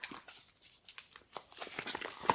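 A paper envelope being opened: a faint, quick series of crinkling and tearing rustles in short irregular bursts.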